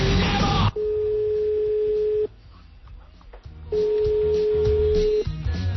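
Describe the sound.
Telephone line tones from an outgoing call: a short noisy burst, then a long steady electronic tone, a pause of line hiss, and a second identical steady tone before it cuts off.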